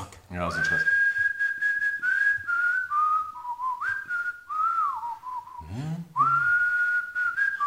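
A person whistles a tune: a clear, high, sustained tone that slides between notes with small pitch bends, pausing briefly near the end before resuming.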